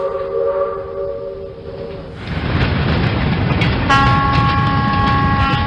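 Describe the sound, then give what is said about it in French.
A Turkish long-distance passenger train runs from Ankara toward the Armenian border. It gives a steady, loud rolling rumble that grows heavier partway through, with sustained horn-like tones at the start and again near the end. “Quitter la gare d'Ankara en Turquie pour se retrouver 24 heures plus tard à la frontière arménienne à l'est. Voilà ce que permet le Doğu Ekspresi, le petit Orient Express turc.”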